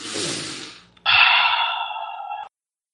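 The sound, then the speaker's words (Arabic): A deep human breath: a long, airy inhale fades out, then after a brief gap a louder, forceful exhale with a slightly whistling tone runs steadily for about a second and a half before stopping abruptly. “خذوا نفس واحد ياخذ نفس عميق”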